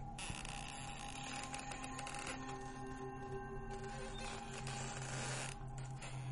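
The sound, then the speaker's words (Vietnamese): Old double doors at a temple creak slowly open with a long, drawn-out groaning creak. The sound is faint, sustained and somewhat strained, with no voices. “Ngay lúc ấy, hai cánh cửa cũ kỹ của chùa đã mở toang, từ từ kèm theo những âm thanh cọt cả cọt kẹt đến đáng sợ”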